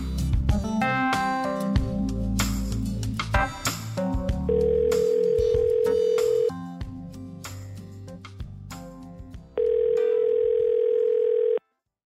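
Telephone tone while calling someone: two long, steady mid-pitched tones, each lasting about two seconds and separated by a gap. Before them comes a busy stretch of clinking and other mixed sounds.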